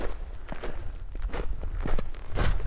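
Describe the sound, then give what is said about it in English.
Footsteps crunch through soft snow while walking across a snowy plateau, a steady series of muffled, fairly loud treads in an even rhythm. “Oops, soft snow. So we're kind of walking along the plateau at the moment. Plateau of snow”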